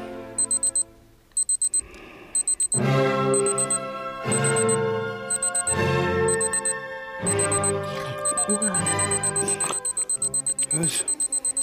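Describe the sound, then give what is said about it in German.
A watch beeping in a radio drama: quick, high electronic beeps repeat in short clustered bursts throughout, running over music and voices. “Ihre Uhr aus, bevor ihr noch jemand den Blutrausch kriegt.”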